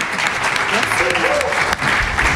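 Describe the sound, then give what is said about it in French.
A studio audience applauds a guest who has come onto the set, steady and dense clapping that holds at an even, loud level throughout. “On peut applaudir Marie qui est venue au plateau avec nous.”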